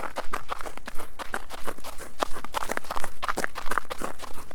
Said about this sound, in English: Crunchy snow.